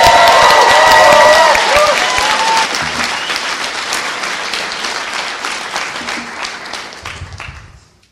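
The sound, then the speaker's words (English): Loud, dense applause from an audience at a Sunstone gathering honoring a woman, a continuous wash of clapping that gradually thins and fades out at the end. “I would like to hear a real good round of applause for a woman who has done huge and amazing work for Sunstone, young woman with an old soul who has contributed vastly. I want to hear it now.”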